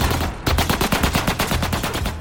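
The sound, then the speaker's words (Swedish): Gunfire from a Chevrolet echoes over a restaurant parking lot: many sharp shots in quick, steady succession, loud and rapid like an automatic burst. “Innan den ljusblå bilens passagerare ens hinner reagera öppnar man eld från Chevroleten och skotten ekar ut över parkeringen.”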